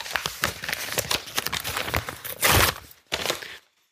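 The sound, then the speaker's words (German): A fortune cookie's crinkly wrapper is torn open, a rapid run of crackles and rustles with a louder burst near the end before it falls quiet. “Also ich werde wieder einen Keks auspacken, einen Moment bitte.”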